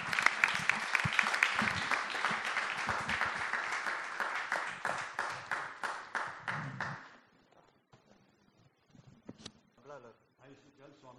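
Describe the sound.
Audience applause welcoming a speaker on stage, sustained dense clapping for about seven seconds that thins out and stops, followed by a man beginning to speak.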